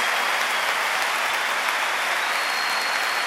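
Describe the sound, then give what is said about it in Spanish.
An audience at a religious worship gathering applauds, a dense, steady wash of clapping that holds evenly throughout with no voices on top. “Un aplauso fuerte al Señor Jesús. A viva voz.”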